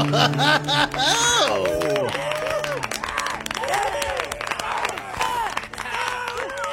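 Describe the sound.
Live studio audience cheering and clapping, with excited voices and scattered claps forming a steady, lively mix that stays loud throughout.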